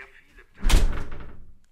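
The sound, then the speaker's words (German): A door being closed, one dull, heavy thud that fades out over about a second. “Kannst du die Tür bitte zumachen?”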